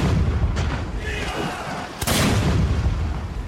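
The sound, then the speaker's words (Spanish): Naval battle artillery fire booms through a dense, continuous roar of gunfire, broken by a couple of sharp, cracking blasts that stand out above the steady rumble. “El combate comenzó con un intenso intercambio de artillería.”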